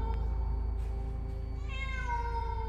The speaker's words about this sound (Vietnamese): Ấy là tiếng mèo kêu, tiếng mèo vang vọng trong bóng tối.